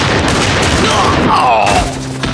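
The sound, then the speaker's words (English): Gunfire from several guns as outlaws shoot at a man beside a coach: a dense, loud, continuous volley of overlapping shots that blur together with no clear gaps, fading slightly at the end. “The outlaw opened fire, as did several of the other outlaws”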